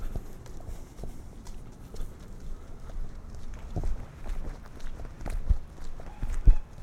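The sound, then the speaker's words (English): Footsteps of a person walking across a street, a steady rhythmic run of faint steps that continues throughout, with no talking. “I'm going across the street, and I'm gonna find a cash machine.”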